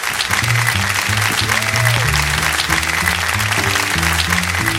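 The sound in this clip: Applause from an audience welcoming a singer to the stage spreads as a bright, steady hiss of clapping. A band plays a stepping bass and melody line underneath.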